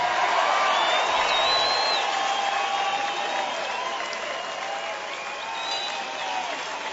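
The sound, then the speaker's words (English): Concert audience applause welcoming a musician on stage at a rock show, a broad sustained roar of clapping with a few high whistles and cheers mixed in, easing off slightly toward the end. “ladies and gentlemen, through his many, many hits, please make very welcome the mystical stylings of Mr. Gary Reitz.”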